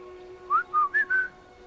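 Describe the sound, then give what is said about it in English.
A man whistles through pursed lips: four short, clear, high notes in quick succession, the first sliding upward, over a faint steady hum. “He purses his lips and whistles.”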